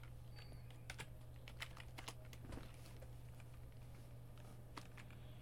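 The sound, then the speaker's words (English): Typing on a computer keyboard held in the lap: a quiet, irregular patter of key clicks, some taps sharper than others, over a steady low hum. “putting the keyboard in my lap here. Okay, cool.”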